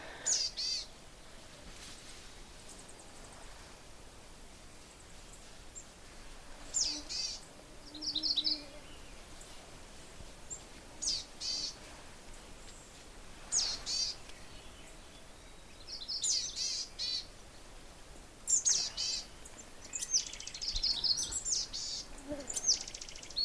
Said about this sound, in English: Hear that little ba-da-da-da-da-da, like a trill? That's also coming from the boreal chickadee. It's a sound that it makes that black caps don't.